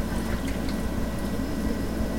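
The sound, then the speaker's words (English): Liquid poured into a funnel over a sink, with a little spilling into the sink; a steady, continuous splashing trickle with no breaks. “Okay, so I spilled a little into the sink. That's okay. I think we got the rest into the funnel.”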